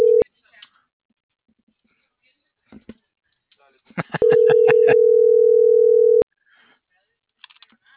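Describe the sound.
A steady low telephone dial tone sounds briefly at the start, then holds for about two seconds, surrounded by scattered clicks and short electronic beeps.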